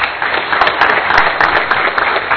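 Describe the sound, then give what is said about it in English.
An audience applauds with dense, steady clapping that fills the whole moment at an even, fairly loud level. “Give all of yourselves a big round of applause.”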